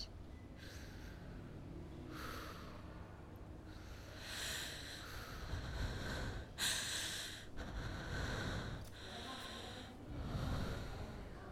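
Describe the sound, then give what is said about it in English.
Soft breathing in and out, with several slow, breathy inhales and exhales in an even rhythm. The breaths are faint and noisy, and no one talks. “Now breathe with me in and out.”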